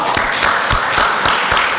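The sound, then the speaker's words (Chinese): Applause from a church audience: a thick, steady wash of clapping with regularly spaced louder claps cutting through, and no speech. “我们是不是给天父爸爸一个最大掌声？哈利路亚！”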